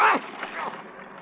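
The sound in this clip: Ocean water splashes as a man is held under: a brief loud burst of splashing at the start, then softer churning and gurgling water that trails off.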